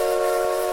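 Steam train whistle sound effect, a loud, steady, high-pitched blast heard alone and cut short after less than a second.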